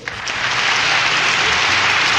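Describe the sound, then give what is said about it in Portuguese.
Applause from the audience of a live country music show swells up within a fraction of a second, then settles into a dense, steady clatter of clapping that stays loud to the end. “Aí, mais palmas.”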